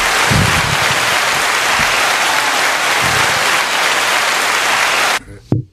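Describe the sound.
Sustained audience applause, a dense, steady wash of clapping that runs loud for about five seconds before cutting off abruptly, followed by a brief low thump.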